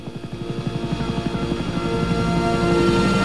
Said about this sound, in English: The chopper skims over jungle treetops in the brightening sky. Keeping low, it heads off into the distance.